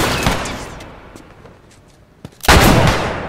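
Gunshots from a weapon in a video game: a sharp report with a long decaying tail, a quieter lull with faint pops, then a sudden louder burst of heavy fire that rumbles on to the end.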